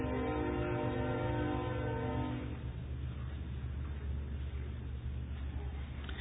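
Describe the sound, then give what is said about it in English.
A train passes, its loud horn sounding for about the first two and a half seconds, then giving way to a steady, heavy rumble of rolling wheels that carries on to the end. “I think I'll wait till the train goes past.”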